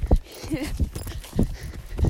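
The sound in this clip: Horse hooves walking over tree roots on a trail ride, a few irregular dull thuds and scuffs at a steady walking pace.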